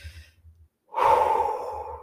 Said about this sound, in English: if I took a moment and took a deep, deep breath